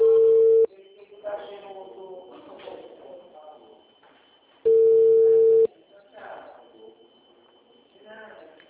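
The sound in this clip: A telephone call transfer tone sounds as two flat, mid-pitched beeps: a short one at the start and a longer one of about a second later on, with talk between and after them.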